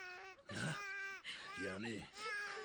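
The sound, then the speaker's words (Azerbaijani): A person cries and sobs in broken, wavering bursts of voice. “Yox, ağlama balam, sən ağlama.”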